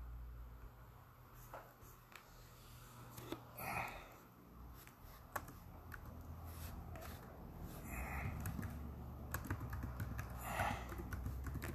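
Faint keystrokes tap on a computer keyboard as a search is typed: soft, irregular clicks in short runs, quiet throughout with a slight rise in level toward the end.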